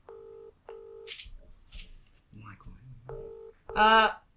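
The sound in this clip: Touch-tone keypad tones as a telephone call is dialed: three steady, clean dual-pitch beeps, two in quick succession and a third after a pause, with brief voice-like sounds between them and a louder voiced burst at the end.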